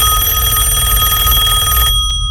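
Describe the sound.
A telephone ringing before an answering machine picks up, a loud electronic ring with a steady high tone that cuts off near the end, followed by a single short beep.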